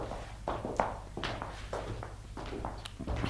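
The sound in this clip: Tired footsteps climbing a staircase: faint, slow, somewhat uneven thuds and taps, several steps at a plodding pace over a low background hum.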